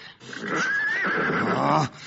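Rakhsh, a horse from Persian epic, lets out a single loud, drawn-out whinny that lasts nearly two seconds, with no voices over it.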